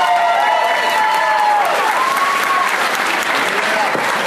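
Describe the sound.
Dense, steady audience applause for the actor Mark Wahlberg after his appearance in Phoenix, a loud, continuous wash of clapping that holds for the whole stretch.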